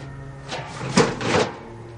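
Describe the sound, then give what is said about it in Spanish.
A rubbish bag dropped into a bin outside a house: a few soft, dull thumps and rustles at a fairly low level. “Ya fuera de la vivienda deposita la bolsa en el cubo.”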